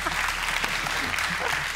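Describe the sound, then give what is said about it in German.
An audience applauding during a card game show, a short, steady burst of clapping that stays dense and even throughout, fairly loud, with faint crowd murmur beneath. “Ein Applaus für das Karnickel.”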